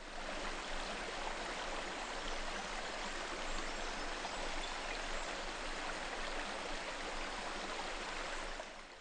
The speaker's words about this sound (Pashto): د باران اوبه په سیندونو او ابشارونو کې بهیږي.